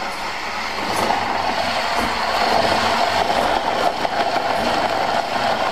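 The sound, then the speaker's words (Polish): A blender driven by a pedalled bicycle crushes ice cubes while its gear skips, producing a steady, loud whirring drone broken by a few faint, regular clicks. “Trochę zębatka przeskakuje, ale jak słychać, blender się kręci, zaraz z kostek lodu będzie pulpa i będziemy mogli się pożywić.”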